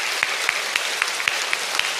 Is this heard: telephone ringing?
no